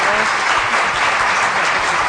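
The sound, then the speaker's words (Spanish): An audience welcomes two presenters with strong applause, loud and sustained clapping at an even level throughout. “Vaya aplausazos. Vaya aplausazos que os lleváis, chavales, ¿eh?”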